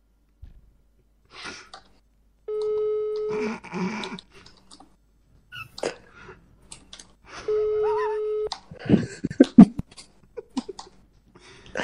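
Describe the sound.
Ringback tone of an outgoing phone call: two long, steady buzzing rings separated by a pause of several seconds. Faint voices and scattered clatter come before, between and after them.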